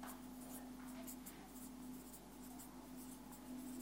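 Handwriting being done to show words to a viewer: faint, continuous scratchy strokes of a pen or marker, with a low steady hum underneath and no talking.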